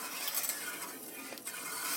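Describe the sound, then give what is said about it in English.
Stirring a roux and milk mixture in a pan gives a soft, continuous scraping swish with a faint sizzle beneath, steady in level, with no voices. “Give the roux milk mixture a stir. Keep it from sticking to anything.”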